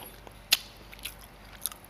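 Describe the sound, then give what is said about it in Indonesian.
A few crisp crunching bites into soft bread with crunchy mung beans and black sticky rice in coconut milk broth, sharp isolated snaps with quiet gaps between them. “campuran teksturnya enak, rotinya empuk ya, kemudian kacang hijaunya beserta juga ketan hitamnya itu crunchy gitu”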